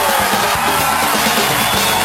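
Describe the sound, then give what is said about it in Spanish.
Loud crowd applause mixed with cheering and yells at the opening of a morning show, continuous and even in level throughout. “Aplauso.”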